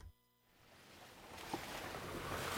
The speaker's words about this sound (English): We've been driving from the capital, Kathmandu, to one of the worst affected areas, the district of Rasua. What you're hearing are the winding, dizzying dirt roads up the mountains of northern Nepal.